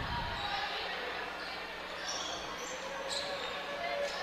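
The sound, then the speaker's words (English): Basketball dribbled on a court during a women's game: a steady run of low bounces under a wash of crowd and court noise, with voices in the background. “Martin's going to dribble out to the top.”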